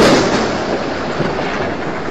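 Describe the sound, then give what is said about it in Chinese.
Rain falling in a sudden shower, a dense, steady hiss that stays loud and unbroken throughout, with no voices. “刚才还好好的，怎么就下雨了呢？”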